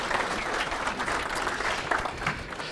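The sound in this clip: Audience applause welcomes a speaker at a men's conference breakout session, with dense, steady clapping from many hands that holds at an even level for the whole stretch.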